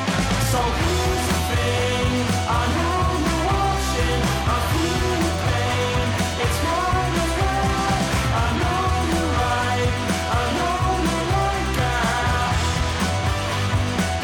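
Dense band music plays loud and steady throughout, with a driving beat and layered instruments and no breaks.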